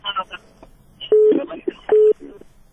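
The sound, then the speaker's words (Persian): Steady tone beeps on a telephone line that has just been cut off: two level, mid-pitched tones, each lasting a fraction of a second, with a voice talking before them and briefly between them. “تلفن قطع شد.”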